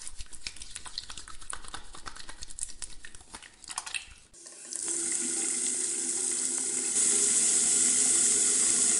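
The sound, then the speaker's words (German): Tap water runs while hands are washed. A few brief clinks and handling noises come first, then a steady, fairly quiet rushing flow continues alone to the end. “Wasch dir jetzt die Hände.”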